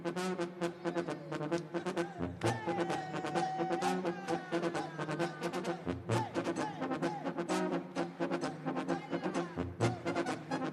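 A trumpet sound effect played on the show: bright, brassy music with rich sustained tones over a steady pulsing beat, loud and continuous from start to finish.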